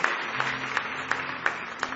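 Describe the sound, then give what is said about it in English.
A church audience clapping hands in praise during a morning service, sharp claps on a steady, even beat over a low sustained tone. “Give the Lord one more hand clap of praise if you love him this morning.”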